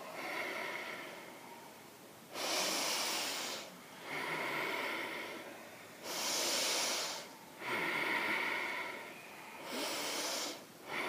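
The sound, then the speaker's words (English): Slow, deep ujjayi breaths during a yoga session, each a long, hissing, throaty rush of air. Several drawn-out inhales and exhales follow in a steady rhythm with short quiet gaps between them, and no talking. “Take four more huge ujjayi breaths here.”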